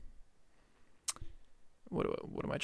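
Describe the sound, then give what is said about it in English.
A camera button is pushed, giving a single sharp click, followed by a voice talking. “Make sure I'm pushing the right button.”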